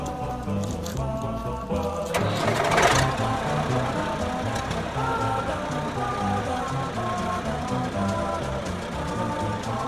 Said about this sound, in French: C'est que je vais démarrer le tracteur, ça risque de faire beaucoup de bruit.